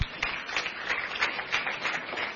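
Audience applause at a church service, a dense patter of many hands clapping steadily for the whole stretch, with no talk over it.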